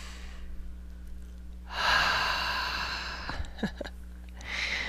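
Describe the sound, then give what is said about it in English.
Deep breaths in a guided breathing exercise, in through the nose and out through the mouth: one long, airy breath swells midway, followed by a few soft clicks and the start of another breath over a steady low hum. “Let's take some deep breaths, please. In through the nose and out through the mouth is the way I like to do it anyway.”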